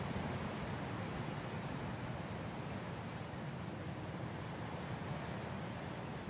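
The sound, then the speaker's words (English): Wind blowing as a steady, faint, even rushing noise that carries on without gusts or breaks. “Does the sight and the sound of this wind remind you of any of your own experiences with wind?”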